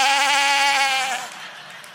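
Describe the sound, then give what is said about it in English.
A voice imitates a billy goat tied up outside a country church, giving one long wavering, nasal bleat that holds steady for over a second and then fades, leaving only faint background noise. “And about that time, a billy goat tied up outside went,”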